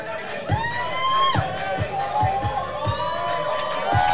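A crowd cheers and shouts at a sporting contest, with a steady roar broken by high whoops, whistle-like cries and a few repeated low thumps underneath.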